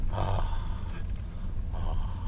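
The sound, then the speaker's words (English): Two forceful breaths from a person doing a breathing exercise, each a loud, rushing puff of air, with a short pause between them. “And now you have independence, so breathe. So he's breathing.”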